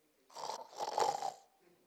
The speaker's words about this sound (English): Snoring, sleeping.